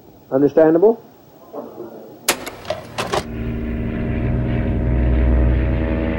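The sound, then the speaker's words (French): A small propeller plane takes off from Georgetown, Guyana. A few sharp clicks come first, then the engine drone swells into a steady, building roar. “un petit avion décolle de Georgetown pour Port Kaituma, à 2 heures de vol de la capitale guyanaise”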